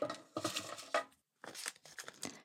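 Dry papery rustling as answer slips for a prize draw are shuffled by hand, in two noisy stretches separated by a short pause.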